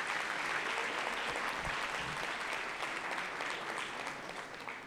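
A church audience applauds at a New Year's Eve service, a steady, dense wash of clapping that holds evenly for about five seconds before easing slightly, fairly faint overall with no talk over it.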